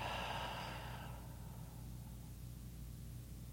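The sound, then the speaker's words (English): A slow breath during a guided relaxation while lying flat on the ground: a soft, airy exhale that fades after about a second and leaves a quiet, steady low hum with no talking. “Perhaps taking a deep breath in, exhaling,”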